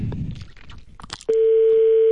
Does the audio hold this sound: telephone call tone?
yes